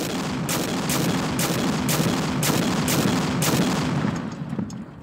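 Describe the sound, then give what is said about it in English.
French 75 field artillery guns fire on German lines during the First Battle of the Marne, a steady series of sharp reports punching through a dense, continuous roar that thins out at the end. “French artillery was now being rolled up to the front lines with direct sight at the Germans. The 75 started pounding them.”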